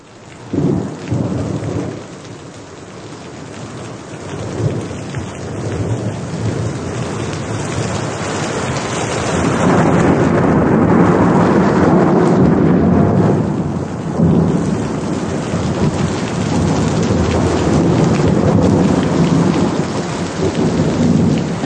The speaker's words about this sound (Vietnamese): Nhưng tôi chưa bao giờ nghe mưa dưới mái tôn.